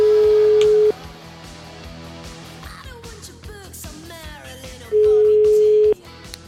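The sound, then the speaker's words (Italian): An outgoing telephone call sounds its tone: two steady, loud beeps of about a second each, separated by several seconds of softer, mixed background sound. “Gli vogliamo fare una telefonatina? Proviamo, proviamo.”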